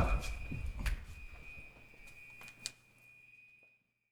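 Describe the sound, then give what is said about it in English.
A fire alarm sounds as one steady, piercing high tone that runs under noisy talk and movement, then cuts off near the end. “Y'all don't got no ego either, because the way that y'all talking through this fire alarm, like it ain't going, like it ain't cracking right now.”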